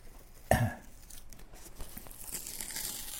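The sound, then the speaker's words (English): Peeling a sticker off a product's packaging gives one sharp crinkling tear, followed by faint, scattered rustling of the paper and plastic. “So there's a sticker on here, but if I take the sticker off, there's more information.”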